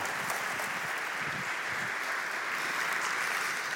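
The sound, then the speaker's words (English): Audience applause greeting a guest speaker brought on stage at a live event: steady, even clapping from a crowd that continues without a break and without clear voices. “So I want y'all to do me a favor and give a huge North Star welcome to Mr. Ken Coleman. Give him a hand, everybody.”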